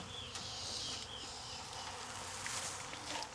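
Honey bees buzzing around a deep hive body during hive work, a dense, steady drone of many wings that carries on without a break.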